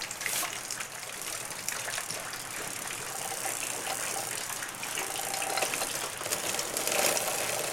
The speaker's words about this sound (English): it's it's French. Motobécane. I like the sound of the wheel going round.